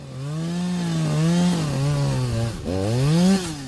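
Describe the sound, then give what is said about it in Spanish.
Chainsaw cutting down trees: a loud, continuous engine drone whose pitch rises and falls as the saw works, dipping briefly just past the midpoint before climbing again. “Y cada vez hay menos. Cada año, más y más árboles son cortados.”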